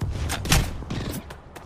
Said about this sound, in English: when you know you can keep pulling that trigger and get those shots. I love that gun.